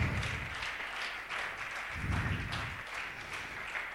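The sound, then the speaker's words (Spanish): A church audience applauding during a sermon: steady, dense clapping that holds at a fairly even level for about four seconds with no talk over it. “no sé quién le da un aplauso a Dios.”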